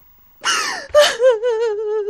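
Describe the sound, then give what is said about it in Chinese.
A woman sobbing: a sharp gasping breath, then a loud, drawn-out wavering wail without words. “行了，行了，行了，行了，别哭了，别哭了啊！”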